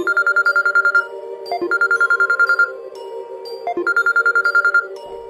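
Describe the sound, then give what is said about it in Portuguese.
A mobile phone ringing at night with loud electronic ringtone tones: three bursts of bright, rapid trilling, separated by short lower chime notes, heard alone. “O meu celular tocou.”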